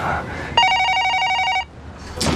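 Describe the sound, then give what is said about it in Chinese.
A telephone rings once with a single bright, trilling electronic ring lasting about a second, loud and clear, then cuts off abruptly. “你姑电话”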